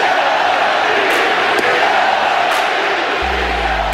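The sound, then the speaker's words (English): A large crowd of baseball fans chants "Sell the team" at an Oakland A's game, a loud, continuous wall of massed voices throughout. “So you can hear the chant in the background of Sell the Team.”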